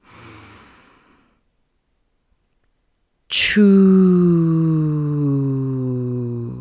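A forceful breathy exhale during a guided breathing exercise, followed after a few seconds of silence by a long voiced tone that starts abruptly and slowly falls in pitch.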